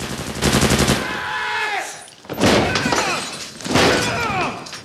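Automatic gunfire sprays bullets into a smoke-filled room during an armed raid, three long, loud bursts separated by short gaps.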